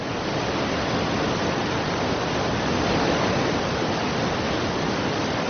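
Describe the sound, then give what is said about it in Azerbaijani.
The roar of Niagara Falls, a loud, steady waterfall rush that holds level throughout. “Dünyanın ən gürsulu şəlalələrindən biri olan Niagaranın səsi 25 kilometr uzaqlıqdan eşidilir.”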